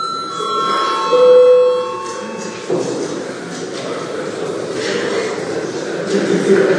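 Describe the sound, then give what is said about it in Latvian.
An electric bell rung to open a parliament session gives a continuous, bright metallic ringing for roughly two and a half seconds, then stops, leaving quieter room noise. “Lūdzu zvanu.”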